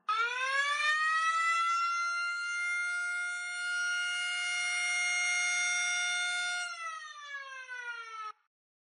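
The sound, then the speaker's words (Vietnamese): A prison alarm siren wails through a block holding newly transferred inmates. The loud, steady harmonic tone rises at the start, holds for several seconds, then drops and wavers before cutting off. “bất ngờ vang lên tiếng còi hú báo động”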